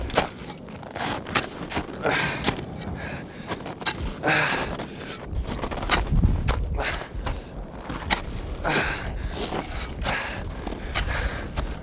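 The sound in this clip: Footsteps of someone walking around outdoors on a hike not far from a summit: many irregular, crisp steps, some sharper and louder than others, with no talking.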